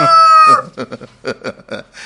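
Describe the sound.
A rooster gives one loud, long, strongly tonal crow, then a run of short, clipped clucks at an uneven rhythm.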